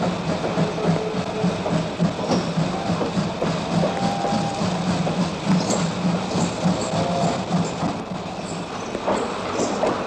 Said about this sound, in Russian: Поезд военнопленными прибывает на станцию Веймар.